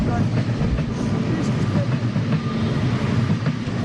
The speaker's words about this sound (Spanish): parroquia compostelana del Araño, parroquia que cruza la vía del tren.